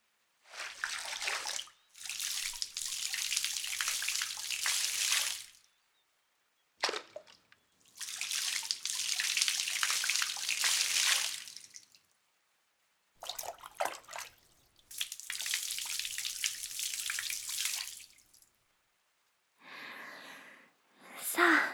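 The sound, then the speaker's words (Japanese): Water pours and splashes while a body is rinsed during bathing, coming in several long, steady gushes separated by short silent pauses, with a quieter pour near the end. “はい、隅々まで洗い終わりました。それでは体を流してまいります。”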